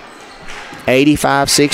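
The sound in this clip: A basketball is dribbled on a court during a women's college game, with quick thumps under talking voices.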